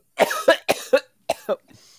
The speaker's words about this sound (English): Gets rid of hiccups because it replaces it with coughs.